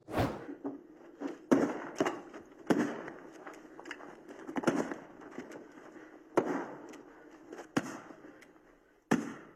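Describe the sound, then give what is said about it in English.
Sharp gunshots from a gun firing blanks, handled by actors during filming: several loud cracks at irregular intervals, each a sudden burst that fades quickly, with softer thuds and rustling in between. “Alec Baldwin firing a gun with blanks”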